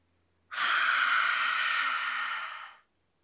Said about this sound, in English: All right, let's practice again. Breathe in through your nose.